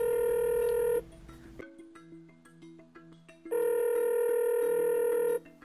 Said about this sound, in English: Let's do it. Dial him up.